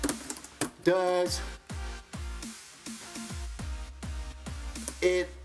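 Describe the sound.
Typing on a computer keyboard, with a run of sharp keystroke clicks in an uneven rhythm, mixed with ringing tones and deep, falling booms throughout.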